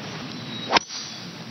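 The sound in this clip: A golf club swings through with a quick swish that ends in one sharp, crisp crack as it hits the golf ball.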